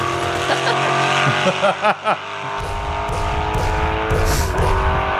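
Cars speeding in a film car chase, with roaring, high-revving engines and bursts of tire squeal, loud and dense throughout.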